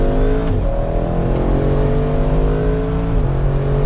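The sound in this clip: Audi RS6 accelerating hard, a loud continuous engine roar whose pitch climbs steadily, broken by two brief dips in pitch before rising again.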